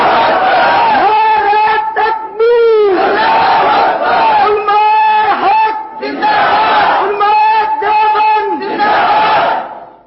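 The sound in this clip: A large crowd shouts 'Allahu Akbar' in unison in answer to the Takbir call at a religious address. Loud, sustained voiced chants repeat several times with short breaks between them.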